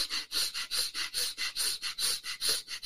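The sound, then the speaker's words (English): Rapid rhythmic breathing from a breathing exercise of short, small-circle breaths: many quick, evenly spaced, airy in-and-out puffs in a steady pulse, with no talking. “Last one, you do 40 of the really small circle, and the breath sounds like this.”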